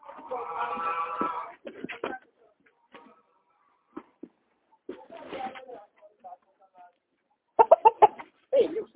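A rooster crows once at the start, a drawn-out harmonic call lasting about a second, followed by scattered short clucks and bird calls with quiet gaps between them.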